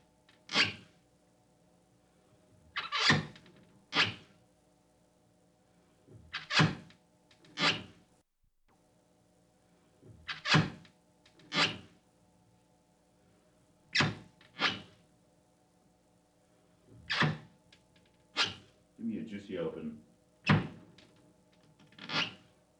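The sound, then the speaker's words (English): Bathroom mirror cabinet doors open and close over and over, giving many sharp wooden thunks and clicks, often in quick pairs, with quiet gaps between them and no talk. “That was the bathroom mirrors opening and closing for the gun.”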